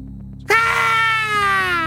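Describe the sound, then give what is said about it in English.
A human voice imitates a creature's blood-curdling screech: one loud, sustained, high-pitched shriek that bursts in suddenly and holds for about a second and a half, its pitch sagging slowly downward. “Her blood-curdling screech burst my eardrums as I fight for my survival. Do you want to do the screech?”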